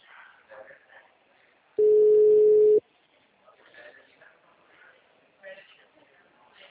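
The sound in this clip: Telephone line tone heard while calling a number reported busy: one steady, mid-pitched beep lasting about a second, with quieter talk-like sounds before and after it.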